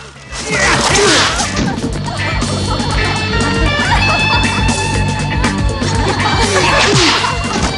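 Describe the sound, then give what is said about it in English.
Crashing impact of a man punched through a screen in a fistfight, loud smashing and thwacking bursts over a constant noisy bed, strongest near the start and again near the end. “Han punches Williams through a screen into a room full of giggling women.”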